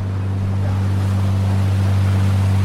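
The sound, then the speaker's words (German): Boat on a harbour tour in Hamburg, passing the Elbphilharmonie: a loud, constant low engine drone with steady wash of water and wind noise throughout, no talk. “Wir gehen zurück zur Hafenrundfahrt.”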